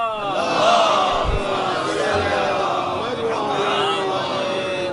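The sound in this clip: A crowd at a religious gathering shouts the Haidari slogan in response to a sermon: many voices rise together in a loud, sustained collective cry that carries through the whole stretch at a steady level.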